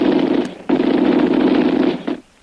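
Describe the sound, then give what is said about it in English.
Machine-gun fire as a radio drama sound effect comes in two long, dense, rattling bursts of loud noise, split by a short break. “But the murderous machine gun fire finally halts their advance.”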